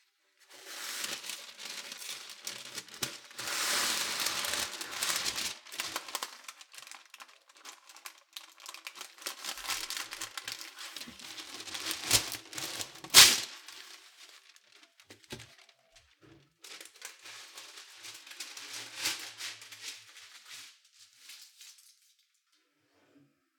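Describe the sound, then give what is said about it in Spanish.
Baking paper crinkles and rustles as it is spread over an oven tray, a run of many dry, crackly rustles that come and go in bursts, with one sharper snap partway through and no talk. “cubro una bandeja con papel para hornear”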